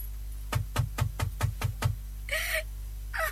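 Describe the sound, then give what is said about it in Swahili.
Knocking on a door: seven quick, evenly spaced raps in a tight run, each a sharp hollow thud, then quiet. “Hapa mimi nabisha.”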